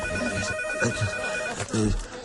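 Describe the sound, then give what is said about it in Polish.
Telephone ringing: a steady electronic bell tone that runs through the whole clip, with a voice speaking over it at times. “telefon.”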